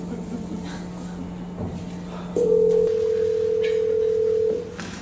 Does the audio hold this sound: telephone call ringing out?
yes

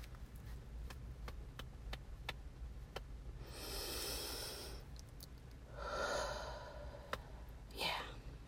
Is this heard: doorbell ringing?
no

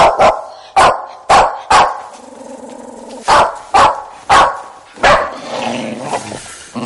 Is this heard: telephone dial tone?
no

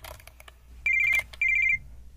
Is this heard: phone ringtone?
yes

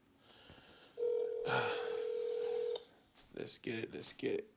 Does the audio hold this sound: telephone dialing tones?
yes

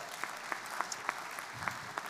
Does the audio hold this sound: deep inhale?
no

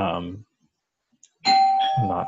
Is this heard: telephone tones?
no

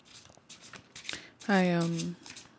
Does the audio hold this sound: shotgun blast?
no

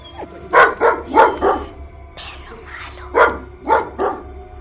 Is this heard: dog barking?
yes

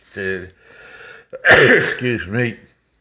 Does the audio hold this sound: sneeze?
yes

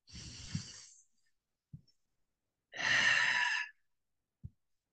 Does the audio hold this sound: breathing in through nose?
yes

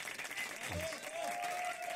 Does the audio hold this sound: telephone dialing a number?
no

